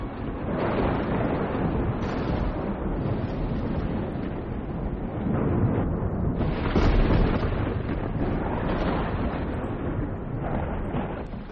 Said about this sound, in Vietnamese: Ở ngoài trời bỗng nhiên nổi lên tiếng sét đùng đùng đến đinh tai nhức óc, mà trời chẳng mưa.